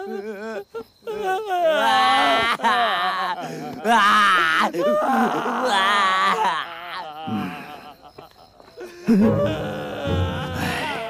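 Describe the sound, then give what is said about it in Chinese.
A person crying, loud drawn-out wails and moans with wavering pitch that run almost continuously, then break into shorter, choked sobs near the end. “你不要一直哭好不好？哭啊哭啊，哭得我都想哭啊。”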